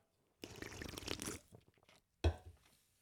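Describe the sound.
A faint, quick slurping sip of Red Bull energy drink with a soft wet swallow, followed by a single sharp knock.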